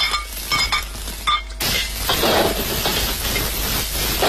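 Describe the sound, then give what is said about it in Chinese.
Assorted ingredients for Nanfeng fish shreds are stir-fried in hot oil in a wok. A few light clinks come first, then a sudden loud, sustained sizzle with repeated scraping strikes of the utensil. “再次起锅，放入各色辅料炒香。”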